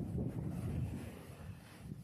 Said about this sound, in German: Was jetzt so ein friedliches Rauschen und Auf und Ab der Wellen ist, wird besonders im Winter auch gern mal zur Sturmflut.